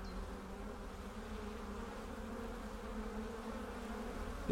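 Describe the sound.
Honeybees hum from two backyard hive colonies, one large and one smaller, kept by a beekeeper. A steady, dense drone holds evenly throughout, with a voice speaking briefly at the very end.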